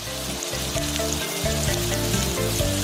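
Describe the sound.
Scallion oil simmering in a pan with scallion segments, ginger chunks and shredded onion: a loud, continuous sizzle and crackle of frying that stays steady throughout, with no voices.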